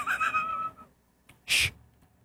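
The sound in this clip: A deep breath comes as a single short, forceful burst of airy noise after a brief voiced sound and a moment of near silence.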